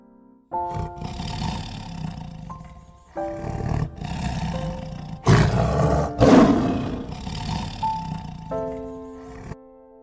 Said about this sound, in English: Tiger.